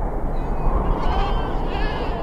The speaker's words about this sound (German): Langsam treibt Hussein Abdullah seine Herde über die staubige Ebene im Nordosten Kenias.